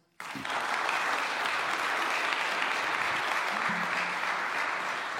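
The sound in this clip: Enthusiastic audience applause greets a guest speaker at a church service. Dense clapping starts suddenly after a moment of quiet and continues at an even, full level for about five seconds.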